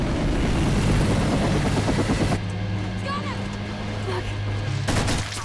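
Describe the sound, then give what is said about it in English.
An attack helicopter passes overhead. Its loud, dense rotor roar drops after about two seconds to a lower steady drone with a humming tone, then swells again briefly near the end. “an attack chopper hoves into view overhead.”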